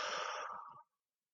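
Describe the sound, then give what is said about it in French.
A single breath let out through the mouth, a soft airy whoosh that lasts under a second and fades into silence. “Allez, ensemble, on inspire. Et on souffle.”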